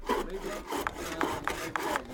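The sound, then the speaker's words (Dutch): Hammering on wood as men build a wooden compost bin in a school garden: a few sharp, evenly spaced knocks over a low scraping, rubbing background, with no voices. “De mannen timmeren een compostbak in elkaar, de dames staan te spitten”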